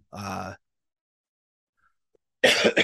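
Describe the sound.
A single short cough to clear the throat, a brief rough burst, then a silent pause before a voice begins talking.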